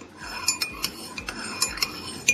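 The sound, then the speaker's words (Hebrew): Metal spoon stirred inside an empty glass, giving a run of bright, ringing clinks at an uneven pace. The clinks are fairly loud against a quiet background, and no one speaks. “זה נשמע כאילו אתה מערבב כפית בכוס ריקה. אתה צודק במאה אחוז”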